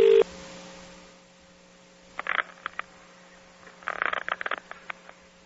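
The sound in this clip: A telephone number being dialed: a steady line tone hums throughout, then two clusters of quick, sharp key tones break in, the second burst longer with many rapid presses.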